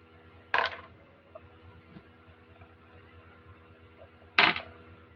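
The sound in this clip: Dice rolled for a tabletop game make two short, sharp rattling bursts a few seconds apart. Each stands out clearly over a low, steady background hum, with no voices.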